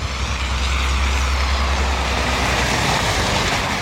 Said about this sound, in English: Plows have been clearing roads as snow falls and temperatures plunge.